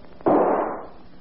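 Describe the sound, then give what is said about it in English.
A single gunshot sound effect from a radio drama: a sharp, loud crack hits suddenly, then a rough burst of noise decays over about half a second into quiet. “Operator, send the police over here. I've just shot my husband.”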